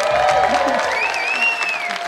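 Game show studio audience applauding and cheering to welcome the first contestant: a loud, continuous clatter of clapping with a sustained tonal line running through it, easing slightly toward the end.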